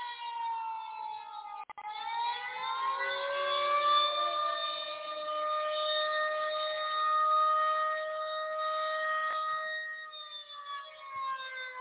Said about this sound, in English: You're supposed to come out after the siren. Oh, anyway, that's my fruit bat siren.